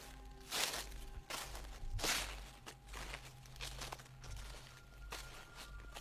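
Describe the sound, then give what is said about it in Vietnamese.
Slow, faint rustling footsteps on a roof: two firmer steps near the start, then softer scuffs, over a steady low hum. “An Hùng còn nghe cả tiếng bước chân tựa như đang đi lại trên mái, cứ sột soạt chậm rãi”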